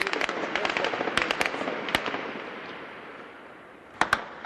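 Gunfire cracks sharply in Gaza at night: scattered bursts of heavy machine-gun reports come early, then one loud isolated shot, and after a quieter stretch a close pair of sharp reports near the end.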